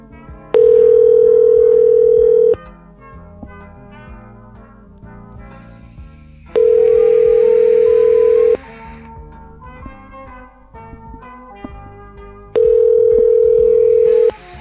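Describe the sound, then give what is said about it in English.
Telephone ringback tone as a call is connected: three steady two-second tones separated by regular four-second pauses, loud over a continuous music bed. “Please hold while your call is completed. So they're getting Tommy's number now. Please hold.”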